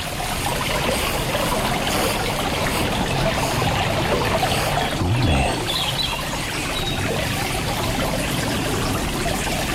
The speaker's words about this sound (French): clapotis de l'eau.